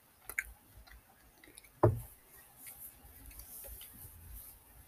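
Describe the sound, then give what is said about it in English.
Chewing a Reese's peanut butter egg: faint, soft mouth sounds with one sharper crunchy snap near the middle, over a quiet background. “Reese's egg. Delicious.”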